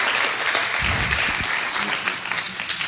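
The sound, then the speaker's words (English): A church audience applauds to welcome a guest speaker, steady clapping that runs loud and unbroken from start to finish. “So please give him a hand and welcome him.”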